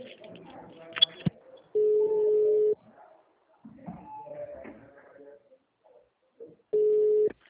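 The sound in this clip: Ringback tone of a telephone call being transferred: two steady, flat electronic ringing bursts separated by a pause, with people talking before and between them.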